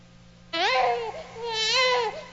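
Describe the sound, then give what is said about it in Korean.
A newborn baby cries in two high, wavering wails in close succession, loud and alone. “아기는 태어나자마자 왜 울지?”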